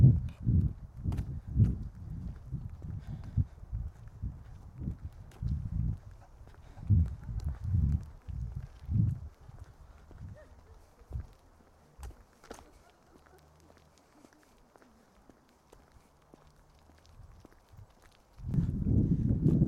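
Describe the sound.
Footsteps of someone walking by a garden house and yard: a run of soft, irregular low thuds that thin out and grow faint midway, then a louder, steadier rumble near the end.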